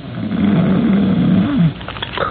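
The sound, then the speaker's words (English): Loud snoring from a big, heavily muscled, early middle-aged man lying in a hospital bed in traction: one long, rough, droning low snore that holds steady, then cuts off abruptly. “From beyond the curtain and the other bed in the room, from the big, heavily muscled, early middle-aged man in it, comes a rhythmic and ear-shattering snore.”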